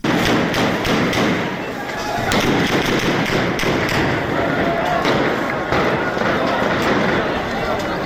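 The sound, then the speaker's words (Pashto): Gunfire rings out during clashes between protesters and police in a bazaar, with many sharp thudding reports scattered irregularly over a loud, dense din that carries voices. “دغه د ضلع شنګلې پالپورې بازار کې د مظاهره چانو او پولیس ترمنځ انښتو کې د ډزو آوازونه دي.”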